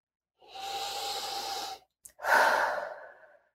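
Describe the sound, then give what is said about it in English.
A big deep breath taken during a guided tapping exercise: a long, airy inhale, a brief pause, then a full audible exhale that trails off. No one speaks. “Big deep breath.”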